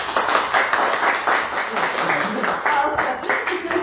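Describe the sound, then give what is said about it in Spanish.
Applause at an academic year inauguration ceremony honouring a person's service: many overlapping claps in a steady, even wash, with voices faintly mixed in. “Un aplauso.”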